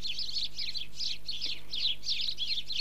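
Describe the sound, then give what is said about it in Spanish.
Sparrows chirping in a neighbourhood, giving a steady run of quick, high, bright chirps repeated roughly every third of a second at a fairly soft level. “Julio Milat, que él descubre la alegría del barrio a través de los cantos de los gorriones que lo visitan cada día”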